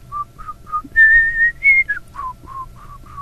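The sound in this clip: Soft, low whistling of a tune by a person: a few short notes, then longer held notes, then more short notes, with a faint low rumble underneath.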